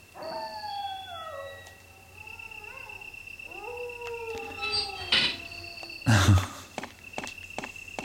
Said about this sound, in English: Those dogs, though.